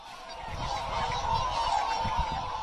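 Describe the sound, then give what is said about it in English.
A large flock of whooper swans on flooded farmland calls in a dense, continuous chorus of overlapping honks, holding a steady, fairly loud level throughout with no talking. “and a very large flock of whooper swans has moved in.”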